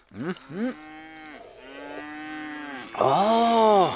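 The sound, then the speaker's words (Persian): A water buffalo calls in a series of deep, nasal lows: two short grunting bursts, then a long drawn-out moan, and finally a louder, fuller bellow. “خان صاحب، صدای گومیش؟ ای گومیشتانم خوب شیر خواد داد”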